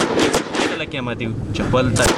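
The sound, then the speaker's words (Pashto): Gunfire at an army training centre, where soldiers practise from weapon handling through marksmanship. A few sharp, hard cracks sit under continuous talking. “دغه سرتیری د سلا د بست کولو بیا تر نشان وشتلو پورې دلته په تمرین بوخت دي.”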